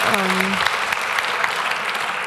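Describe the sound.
Audience applause for a speaker being introduced at a talk: steady, dense clapping from many hands, sustained evenly for a couple of seconds.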